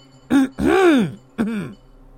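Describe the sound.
A person clears their throat in an audio drama dungeon scene: three short, voiced, rasping bursts, the middle one longest, heard alone with no other sounds.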